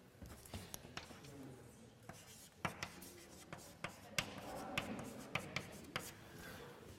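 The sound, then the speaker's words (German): Handwriting strokes, likely working through a math derivation: many quick, faint scratchy strokes with sharp little taps in an irregular rhythm, growing slightly busier toward the end. “Einen Moment, wie schreibe ich das jetzt am besten? Ah, ich schreibe es so.”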